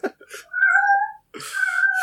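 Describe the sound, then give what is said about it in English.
A cat meows loudly, two long, drawn-out yowling meows with a short gap between them, preceded by a few brief chirping sounds and no talk. “The cat doesn't like that. Yeah, no, the cat did not like that at all.”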